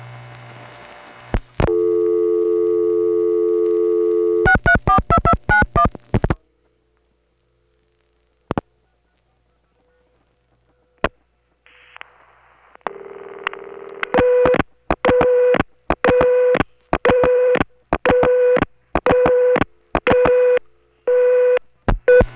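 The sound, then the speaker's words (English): A telephone call dialed from the West 73rd Street crossbar 5 switch and routed through the Williamsburg ESS tandem: a steady line tone, a rapid run of clicks, near silence broken by lone clicks, then many short repeating tone bursts. “Here's the number dialed normally from the West 73rd Street crossbar 5. It goes through Williamsburg ESS Tandem 21250. ESS Tandems, delay the supervision.”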